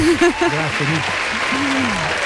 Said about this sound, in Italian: Applausi alla grande.